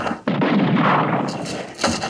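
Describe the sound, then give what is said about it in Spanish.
Automatic rifle gunfire in a radio drama: a loud, sustained burst of rapid shots starts abruptly and runs for about one and a half seconds with little pause. “Luco Branco acciona el rifle, pero Kalimán desaparece como un fantasma entre las rocas. Luco se angustia al ver que ha agotado el cargador del rifle automático.”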